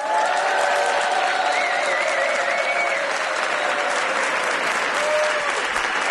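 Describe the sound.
Dense, steady applause from a large audience in a Madrid venue, loud and unbroken throughout, with cheers and whistles rising above the clapping.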